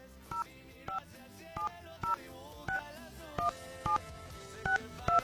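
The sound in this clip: Telephone keypad tones as a call is dialed: a rapid series of short, evenly spaced beeps at steady intervals over a low, continuous background, with no talk.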